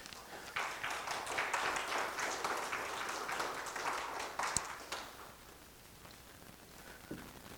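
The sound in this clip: Church audience applauding to welcome its bishop: a dense patter of many hands clapping that holds steady for several seconds, then thins and fades, leaving a quieter tail with a few scattered claps.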